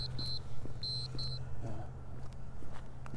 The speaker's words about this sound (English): Maybe just ignore the alarm and walk through here.